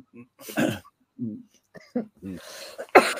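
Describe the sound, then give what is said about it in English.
Several harsh, irregular coughs with a throat-clearing quality come in short bursts of varying strength, separated by brief quiet gaps. The final one is the loudest. “oh, excuse my coughing.”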